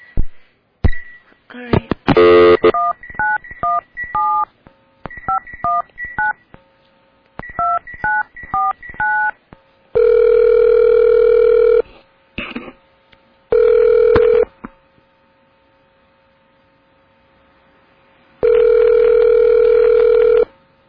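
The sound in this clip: Telephone keypad tones beep in quick groups as a number is dialed, followed by a few bursts of steady dial tone separated by silence.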